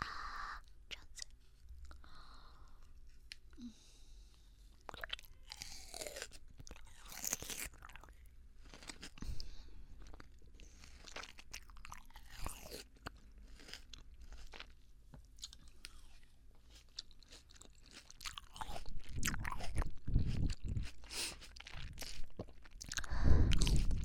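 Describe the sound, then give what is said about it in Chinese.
Crunchy chewing of freshly cut fruit, with many small, irregular bites and crunches over a faint background. The chewing grows louder and denser toward the end. “早上就切水果啊，会不会太凉了一点？好嘛，尝一尝。”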